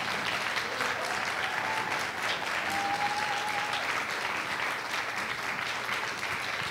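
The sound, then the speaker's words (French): A church audience applauds warmly to welcome a pastor, steady dense clapping that holds at an even level throughout the nearly seven seconds. “si on peut accueillir chaleureusement, bénir le Seigneur et acclamer le Seigneur pour son serviteur, pasteur David Storm”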